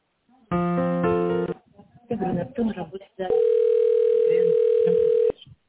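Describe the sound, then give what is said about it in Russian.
Telephone line tones while a call is transferred: a buzzy multi-tone signal, a stretch of muffled voice-like sound, then a long steady mid-pitched electronic tone that cuts off abruptly. “Да, одну минутку, оставайтесь на линии, соединяю.”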